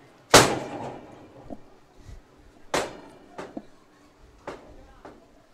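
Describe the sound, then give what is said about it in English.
Sharp bangs of a door slamming in gusty wind at a high school football game, Lawton at Saugatuck: two loud, abrupt hits followed by several smaller knocks and rattles. “My friend, the door again. We're having to contend with this craziness with the wind, but that's okay.”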